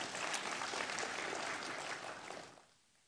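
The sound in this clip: Congregation clapping hands in praise during worship, a dense, steady burst of applause that holds for a couple of seconds and then quickly dies away, with no voices.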